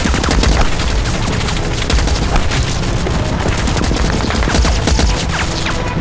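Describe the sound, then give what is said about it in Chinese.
Anti-aircraft heavy machine gun firing horizontally: a loud, relentless barrage of rapid overlapping shots forming a dense, continuous crackle from start to finish. “钢丝机枪平射，运输中断。 南朝鲜军竟然用高射机枪平射。”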